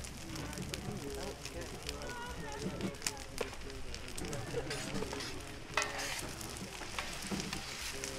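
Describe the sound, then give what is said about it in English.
Omelets frying in a pan with a steady crackling sizzle and occasional scraping stirs, while people talk over it. “Flip them. Flip them, flip them. Omelets.”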